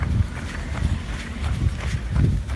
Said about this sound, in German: Wir laufen schon. Egal. 10. 9, 8, 7. Wir laufen trotzdem schon.